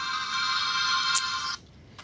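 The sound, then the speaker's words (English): A mobile phone ringtone playing a Legend of Zelda melody: bright, steady electronic tones sound alone for about a second and a half, then stop abruptly. “She was calling. That's my Legend of Zelda. Ringtone?”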